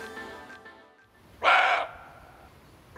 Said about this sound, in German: Das war ein Rehbock.